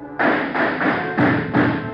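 Tear gas shells fired into a room during a police standoff: five dull, muffled thumps in a quick, fairly even series, each a broad burst with no voices between them.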